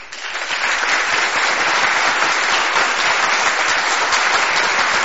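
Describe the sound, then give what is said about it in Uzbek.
Thunderous applause from an audience after Uzbekistan's president takes the oath of office. Within the first half-second it swells into a loud, dense, sustained roar of clapping that does not let up. “Keyin chapaklar, guldiroz qarsaklar.”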